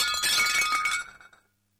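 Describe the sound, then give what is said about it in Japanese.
A plate breaking at home at eight in the morning: a bright, loud crash of shattering ceramic that clatters for about a second, thins into a few scattered tinkling fragments, and then falls silent. “出勤前の午前8時、妻がお皿を割った。”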